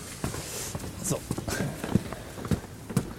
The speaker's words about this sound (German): Treppenläuferin, die sich. Äh, die während uns, während wir podcasten, Treppe hoch und Treppe runter läuft.